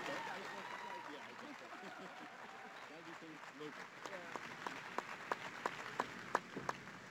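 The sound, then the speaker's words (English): An audience applauds as PWHL San Jose, a women's professional hockey team, is welcomed to the Bay Area. Dense, sustained clapping grows more distinct and sharply accented toward the end while a voice speaks over it. “I'm supposed to ask you to make some noise and put your hands together, but you're already doing that”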